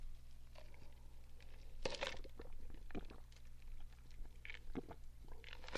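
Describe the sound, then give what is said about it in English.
Gulps and swallows of Sprite Zero soda taken in a swig: a few short, moist mouth clicks and swallowing sounds spaced irregularly over a low, steady hum, with no talking. “Ah, yes. Another swig from my Sprite Zero. Very refreshing, very crisp, delicious.”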